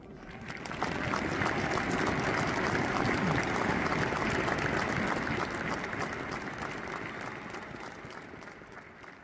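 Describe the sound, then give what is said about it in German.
Football crowd noise as Hertha fans jeer at celebrating Fortuna fans: a dense, sustained roar of many voices with clapping texture that swells early, holds steady, and then slowly eases off. “da hörte man zwischendurch einmal ein bisschen Unmut der Hertha-Fans gegen die feiernden Fortuna-Fans”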